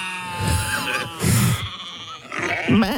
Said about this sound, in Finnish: Tässä on nämä erittäin äänekkäitä kuulemma nämä lampaat, etenkin aamulla. Mikä niitä niin kuin aamulla sitten määkityttää?